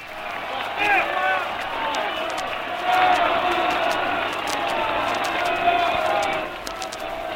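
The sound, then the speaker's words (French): Crowd in Paris cheering Belgian King Leopold III along his route to the Arc de Triomphe after a ceremony: a broad roar of cheers and clapping that swells and ebbs, with a man speaking over it. “La cérémonie est terminée, la foule va lentement s'en aller, non sans avoir acclamé une dernière fois tout au long de son parcours jusqu'à l'Arc de Triomphe, le jeune roi qui a su aujourd'hui conquérir notre capitale.”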